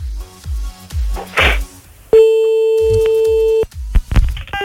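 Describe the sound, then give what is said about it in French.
A telephone handset slammed down to hang up gives a brief sharp clack, then a steady electronic line tone holds for over a second, all over a rhythmic thumping beat. “Et on a bien entendu le clac du téléphone. La violence du raccrochage.”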